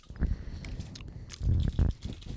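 Biting into a Kit Kat Chunky chocolate bar: a few crunchy snaps, with a heavier burst of crunching and chewing in the second half, no talk.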